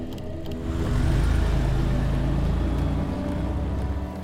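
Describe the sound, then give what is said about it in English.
A truck reversing and then driving away, its engine a steady low rumble that swells after a moment and holds loud and even to the end. “She watches Nathan reverse the truck and leave.”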